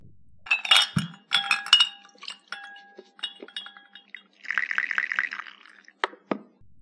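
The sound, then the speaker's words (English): Coffee poured into a cup in the UAE: sharp clinks and ringing taps of cup and pot, a short bubbling burst of pouring liquid, then a few more bright clinks, with no talking. “It is the sound of pouring coffee into a cup.”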